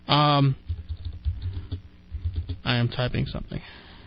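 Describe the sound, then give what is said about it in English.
Typing on a computer keyboard: a run of soft keystrokes clicks along between stretches of a man talking, with the voice at the start and again near the end. “I am typing something.”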